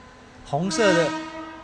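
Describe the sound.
A train whistle sounds from an approaching train in Taiwan: a single harmonic blast of about half a second that rises out of steady background rumble, then fades.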